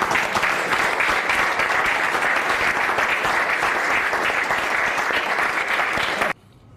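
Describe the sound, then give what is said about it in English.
An audience at a political address applauds, a dense, loud clapping that holds steady for about six seconds before cutting off abruptly. “Interior Secretary Doug Burgum who was clapping by himself before everyone else jumped in”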